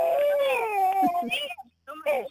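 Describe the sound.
A baby boy cries in drawn-out, wavering whimpers and wails that break off briefly near the end, then resume.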